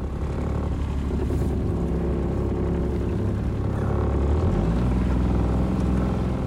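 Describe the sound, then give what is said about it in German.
A small wooden family motorboat runs along the Danube, its engine giving a steady, loud, rumbling drone with a broad churning hiss throughout. “fährt mit dem kleinen Holzboot der Familie die Donau entlang”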